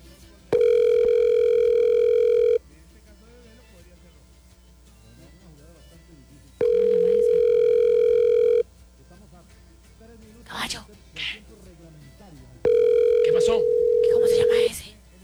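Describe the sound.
A telephone call rings unanswered: three long, steady ringback tones sound about six seconds apart, with brief faint noises in the gaps between them.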